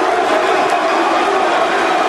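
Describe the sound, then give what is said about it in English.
A hostile ECW wrestling crowd roars during a John Cena versus Van Dam match, a dense, steady wall of loud crowd noise with no breaks. “There's no doubt this hostile ECW crowd is definitely getting to the WWE champion.”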